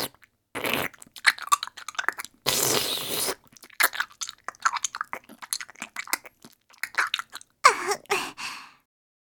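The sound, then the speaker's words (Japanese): Wet chewing and squelching of lumpy, clotted milk worked around the mouth and between the teeth. Many sticky smacks and clicks come in irregular bursts, with one longer hissing slurp, and no voices. “こうしてよく噛んでから、下の裏から歯の間まで、つぶつぶにダマになったミルクをくちゅらせてから。”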